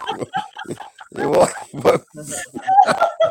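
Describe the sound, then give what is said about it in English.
A dog whimpers and yips in a few short, high, whiny cries mixed with other sounds, while someone talks over it. “Here's his poor dog.”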